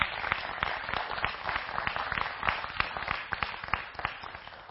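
Audience applause welcoming guests onto the stage at a morning gathering: dense, steady clapping from many hands, even in loudness and carrying on for several seconds.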